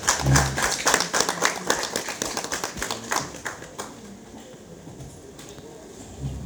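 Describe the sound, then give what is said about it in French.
An audience applauds as guests are introduced at an event: dense, lively clapping that gradually thins out and fades after a few seconds. “Est-ce qu'on peut acclamer Yael Motazé?”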